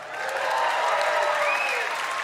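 Applause from an audience welcoming back a traveling correspondent, a comedian, is dense and steady with a thin whistle riding over it, and stays loud throughout.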